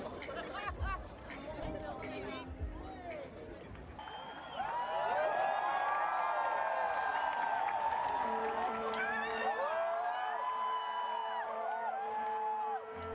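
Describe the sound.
Festival crowd chatter swells into louder cheering and whoops just before an indie band's set at the 2017 Fuji Rock Festival in Japan. A steady, dense hubbub stays loud to the end.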